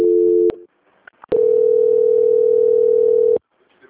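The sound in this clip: Telephone tone during a call transfer: a short steady tone cuts off, followed by a pause with a few faint clicks, then a long, unbroken tone of about two seconds that stops abruptly.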